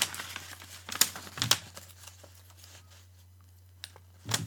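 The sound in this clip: A paper envelope is opened, giving a few sharp crinkling, tearing bursts separated by quieter rustling, over a faint steady low hum.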